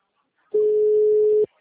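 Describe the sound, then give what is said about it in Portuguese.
Telephone ringback tone while a call is placed, one steady mid-pitched tone lasting about a second, heard alone against silence. “Chamando.”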